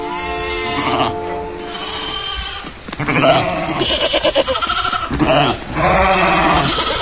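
A flock of sheep bleats on a border pasture. Several loud, wavering bleats overlap and follow one another, some drawn out and some short.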